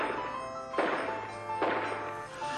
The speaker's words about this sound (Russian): В горах кто-то стреляет. Горцам надо что-то есть, а тут олени. Выстрел